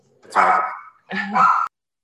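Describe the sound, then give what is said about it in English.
A dog at home gives two drawn-out, moderately loud barks with a short pause between them, and nothing else is heard around them. “Sorry for my dog.”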